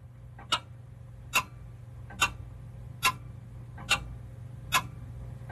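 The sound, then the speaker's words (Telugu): A pendulum clock ticks six times at a steady, even pace, each tick a crisp, bright click. A low constant hum sits beneath the ticks. “Pendulum tick tock tick talk అని sound చేసుకుంటూ అట్టి ఇటు కదులుతూ ఉంటుంది.”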